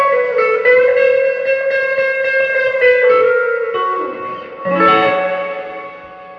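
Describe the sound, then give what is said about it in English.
Electric guitar through a Vox amp with reverb set at 6 plays sustained, ringing chords carrying a slight fuzzy, rattling buzz like a vibrating snare drum; the tone holds, briefly dips, then a fresh strum swells and fades. “There's a little bit of fuzz in there. Yeah, it's got this weird, like, interference to it. It sounds the way a snare drum rattles when yeah. it's vibrated in a room.”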